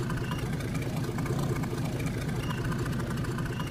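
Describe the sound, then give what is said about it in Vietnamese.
Steady, low throbbing engine drone of a small passenger ferry carrying about ten passengers across the Ô Môn River in Cần Thơ, Vietnam; a continuous rumble with no talk. “Lái chiếc phà nhỏ, mỗi chuyến chở khoảng 10 hành khách qua sông Ô Môn.”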